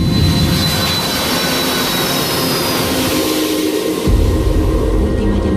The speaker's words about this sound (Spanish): Hoy nos hemos subido de nuevo a un avión de Iberia, pero esta vez después de darle al play.